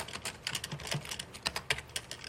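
Rapid typing on a computer keyboard while writing code, with many quick, light key clicks in an uneven rhythm and a few sharper taps. The typing is fairly faint, with no talk.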